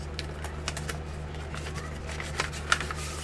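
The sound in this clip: Paper envelopes of QSL cards from the Bureau are handled in a series of crisp, irregular rustles and light taps. The sounds are fairly faint over a low steady hum.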